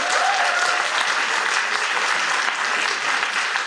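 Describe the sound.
Audience applause greeting two guests at a French-language talk event, a dense, steady wash of clapping that holds at an even level throughout without pausing.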